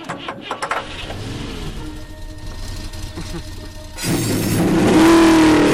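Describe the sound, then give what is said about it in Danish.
Race car engines start and rev at the start of a race, a low, uneven rumble that swells after about four seconds into a loud, sustained roar that keeps building. “Mine herrer, Start jeres motorer!”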